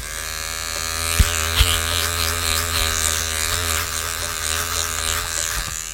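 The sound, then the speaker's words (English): Electric razor shaving off beard hair, a loud, steady buzzing drone with a bright harmonic whine that holds throughout, broken by two short knocks early on. “So I shall shave off some of the beard.”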